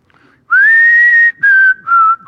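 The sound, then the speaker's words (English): A person whistles a short tune, loud and alone: a long sustained note followed by a few shorter notes with brief gaps between them. “I don't know how to whistle it, but anyway, that just came over me.”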